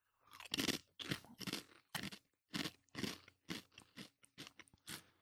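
Crisp crunching as someone bites and chews a gyro-flavored Lay's potato chip: many short, dry cracks in an irregular rhythm, fairly quiet and with no talk.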